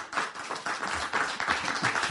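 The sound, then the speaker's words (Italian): Applause from an audience: dense, steady clapping with irregular bursts, moderately loud throughout and with no voices on top. “dobbiamo conoscere Manu, un applauso per Manu”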